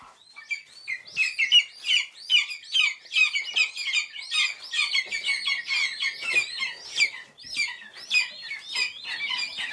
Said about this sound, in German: Sie sind klein, grau, haben Knopfaugen, sind unfassbar flauschig und sehr laut, wenn sie hungrig sind, die Schreiadler-Küken.